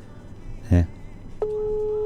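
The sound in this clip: A telephone tone sounds during dialing: after a brief, loud burst, a single steady electronic tone starts and holds at an even pitch and level until the end.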